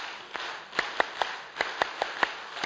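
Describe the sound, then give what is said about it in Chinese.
Scattered hand claps from parents at a children's gathering: a few sharp, separate claps in an uneven rhythm, fairly faint against a quiet background. “向我哋拍手，一二三”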